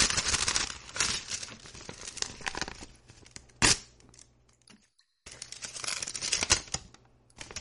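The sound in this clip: A paper envelope being opened: irregular bursts of ripping and crinkling rustle, with one sharp, loud tear near the middle and a brief pause before more crinkling follows.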